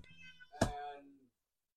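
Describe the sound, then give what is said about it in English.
A cat meows once, a drawn-out, fairly faint cry whose tone sinks slightly as it trails off, with a few soft sounds before it and silence after. “Even the cat said bye.”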